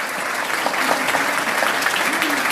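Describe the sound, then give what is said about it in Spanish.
Applause for a newly appointed minister of Industry, Energy and Mining, a dense, steady patter of many hands clapping that fills the whole moment without a break. “También le queremos dar un aplauso en este momento”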